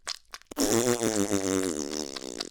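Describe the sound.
A long, buzzy fart with a wavering, rippling pitch that carries loudly for about two seconds after a few faint clicks and taps. No voices over it.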